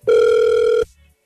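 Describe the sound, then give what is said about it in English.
A telephone ringback tone on an outgoing call: one loud, steady, buzzy electronic tone that lasts under a second and then cuts off abruptly, heard on its own. “Okay, we're going to see if he picks up the phone.”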